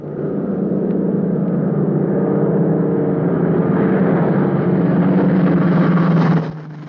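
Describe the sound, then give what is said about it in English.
A Mitchell bomber approaching over Norway: a loud, steady engine drone that holds for several seconds, brightening slightly as it builds, then cuts off abruptly near the end. “In Norway, Johansson and his blonde colleague watch from the undergrowth as the Mitchell plane approaches.”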